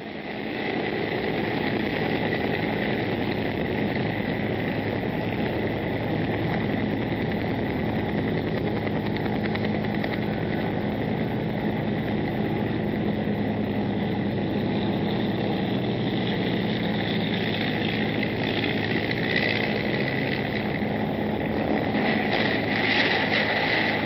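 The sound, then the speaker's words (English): A Huey helicopter with a fire agency comes in to land, producing a loud, continuous engine roar that holds steady and dense for the whole clip, with no talk. “This is a Huey, I think, from Cal Fire is what it looks like to me. He's coming in landing.”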